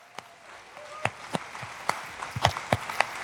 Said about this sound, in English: one more round of applause